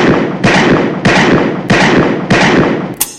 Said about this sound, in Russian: Дальше Александр стрелял, как ковбой из американского вестерна, двумя руками держа револьвер и одновременно взводя курок.